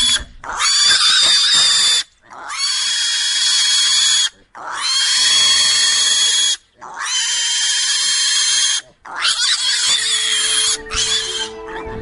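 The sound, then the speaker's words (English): A pig squeals while being picked up: five long, loud, shrill screams, each lasting about two seconds, with brief pauses between them. “This is the sound of a pig being picked up. He's not happy.”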